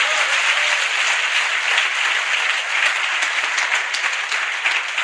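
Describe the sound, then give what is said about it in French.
An audience applauds in praise of the Lord during a French-language church service, a thick, even wash of clapping sustained throughout with no single voice standing out. “Est-ce que quelqu'un est béni ce matin? Est-ce que tu peux acclamer le Seigneur ce matin?”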